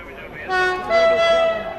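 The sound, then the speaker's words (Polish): A train horn sounds a loud, steady, chord-like blare that swells in two long pushes over a low rumbling background. “Tam mi pociąg.”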